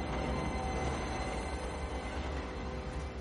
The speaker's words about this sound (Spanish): El tren pasa de largo.